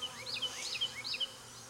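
Honey bees buzzing in a hive around queen cages holding virgin queens: a faint, steady hum with brief, high-pitched whining tones rising over it.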